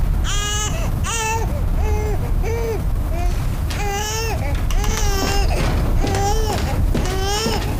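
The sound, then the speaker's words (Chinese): A pig crying: many loud, whiny, tonal wails that rise and fall in pitch, repeating in short bursts with brief gaps between them, heard without speech. “你没有听到猪在哭吗？”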